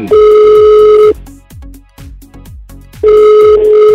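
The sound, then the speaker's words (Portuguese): Telephone ringback tone from an outgoing call. Two long, steady, loud tones are separated by a pause of about two seconds, with soft rhythmic pulses continuing in the gap. “Vamos tentar de novo. Vamos ligar de novo.”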